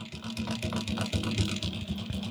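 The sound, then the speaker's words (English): Hand-operated embroidery machine running in slow mode, giving a faint, steady mechanical whir broken by rapid, soft clattering pulses throughout. “And so what this is for doing like custom embroidery, and it's hand operated. So there's a crank underneath that I use to control the direction that the needle is going in.”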